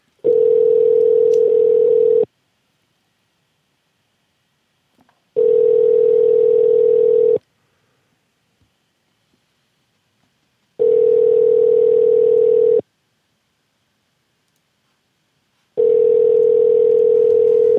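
Ringback tone of an unanswered telephone call ringing out. Four steady, even buzzing tones, each about two seconds long, are separated by long silent gaps, with no voices.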